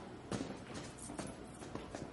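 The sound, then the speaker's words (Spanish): Footsteps of two people walking down the stairs of a building: faint, soft, evenly spaced footfalls with a light scuff on each, a few steps in all. “Danny y Ward caminan por una plaza. Bajan las escaleras de un edificio.”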